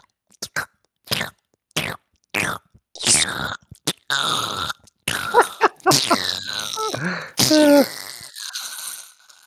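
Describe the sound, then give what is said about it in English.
A voice imitates a cotton swab going up a nostril: a run of short, sharp breathy snorts and sniffs, then longer wet snuffling, straining and groaning noises, moderately loud and uneven. “I'm not sure people want to get the sound of one of those fucking Q-tips going up in and around your nostril. Oh, I hate this. I'm gonna Foley some noise.”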